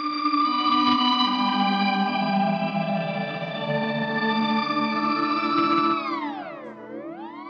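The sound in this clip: A guitar played through effects pedals with reverb and tremolo: a sustained, shimmering, chorused and slightly distorted chord rings out steadily, then wobbles and dips in pitch near the end.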